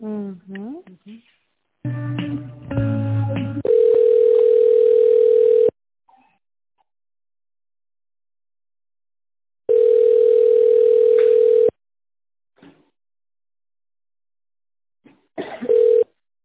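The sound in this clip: Telephone ringback tone plays while a call is transferred to another department: two long, steady tones of about two seconds each separated by a long pause, preceded by a cluster of short dialing beeps, with brief faint sounds near the start and end.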